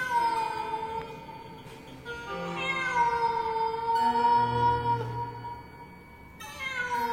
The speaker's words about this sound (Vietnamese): Cùng lúc đó, ở trên mái nhà có tiếng mèo kêu lên choe choé.